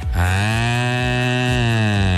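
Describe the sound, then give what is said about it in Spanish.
A cow moos in one long, loud, low bellow that holds a steady, rich tone for about two seconds, with no other sounds around it. “Dijo la vaca.”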